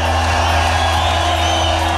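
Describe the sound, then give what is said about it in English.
A nightclub crowd in Plymouth screaming and cheering: a loud, dense, continuous wash of voices with a steady low drone beneath it throughout. “We are at Scream tonight. They live up to their name, don't you?”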